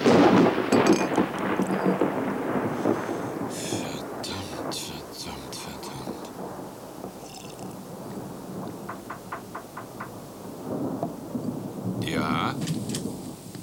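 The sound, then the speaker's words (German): A heavy thunderstorm in a radio drama, with dense rain hiss and deep rolling thunder. The thunder is loudest at the start, then settles into a steady downpour with scattered crackling bursts. “Es ist also durchaus erforderlich, dass nun ein kräftiges Gewitter losbricht.”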